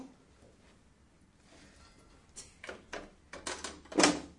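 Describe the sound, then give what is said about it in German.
A small door is shut: a few soft clicks and knocks build up, ending in one sharp, louder snap. “Klappt auch zu. Die Tür zu.”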